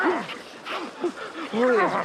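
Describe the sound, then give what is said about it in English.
A dog whines and yips in several short, high, wavering bursts after a near-drowning in river rapids on a cold evening, with brief pauses between cries. “Good dog, good dog, good dog.”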